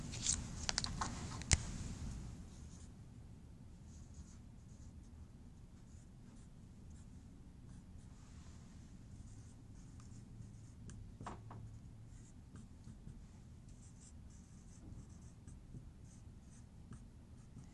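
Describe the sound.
Faint, continuous scratchy strokes of writing during a math lecture, with a few sharper taps near the start and no talking.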